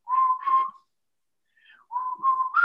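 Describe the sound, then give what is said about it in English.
A person whistles in imitation of a pet whistling a cartoon theme song: clear, steady, mid-pitched whistled notes in two short phrases separated by a silent pause. “this little fucker whistled the entire theme song, the entire summer, starting at 6:15 every single morning”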